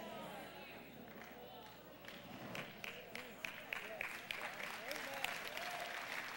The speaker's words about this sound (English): You should clap your hands right there.